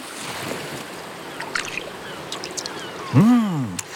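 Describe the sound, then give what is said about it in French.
A starfish moving in water, heard as a soft, continuous watery wash with faint, scattered small ticks and taps, like tiny steps, rising briefly louder near the end. “J'entends comme des petits pas dans l'eau. Mais si, c'est l'étoile de mer.”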